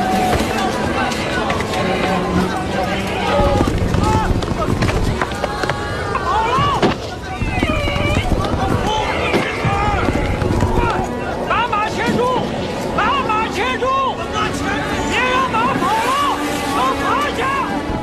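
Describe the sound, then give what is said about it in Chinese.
Panicked horses bolting in a howling desert sandstorm, throwing soldiers from their backs while camels grow restless: a loud, dense jumble of hoofbeats and high horse cries over a constant rumble of commotion. “马匹惊慌失措，到处乱窜，战士们纷纷从马上摔下来，马儿狂奔，战士们根本拽不住马匹”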